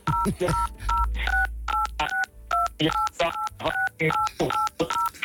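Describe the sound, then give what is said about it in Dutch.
Telephone keypad dialing tones: a long, evenly paced series of short two-tone beeps, each crisp and moderately loud, with brief noisy bursts between them. “zit je nou op een telefoon?”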